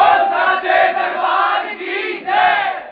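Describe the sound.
Crowd of devotees at a devotional singing gathering for the goddess shouting a Jaikara chant together, a loud, sustained massed roar that swells and eases in waves before trailing off at the end.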